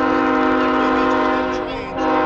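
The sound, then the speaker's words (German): A long freight train hauling hundreds of coal-laden wagons arrives at a large coke plant near Pittsburgh, its loud, sustained horn sounding layered tones over a steady rumble that dips slightly before swelling again. “Der Zug will einfach nicht enden. Hunderte Waggons, beladen mit Kohle, kommen in Clairton Works an”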